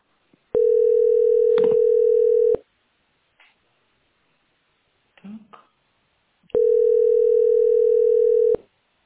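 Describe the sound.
A telephone ringback tone sounds while a caller waits in a phone queue: two long, steady, single-pitch tones of about two seconds each, separated by a longer pause with a few faint clicks and murmurs.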